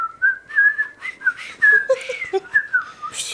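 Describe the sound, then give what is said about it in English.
A man whistles a tune while walking down the street: a lively string of clear, bright notes in short phrases. The pitch wavers up and down, and the whistling is heard alone. “And so he's just walking down the street, and you just hear him whistling, like,”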